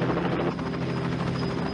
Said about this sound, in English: You can tell it's a Canadian helicopter.